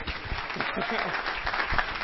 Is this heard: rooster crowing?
no

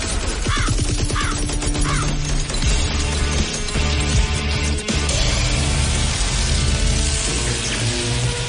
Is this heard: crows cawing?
yes

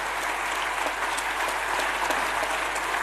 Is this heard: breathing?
no

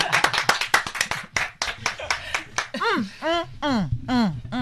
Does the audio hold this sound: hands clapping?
yes

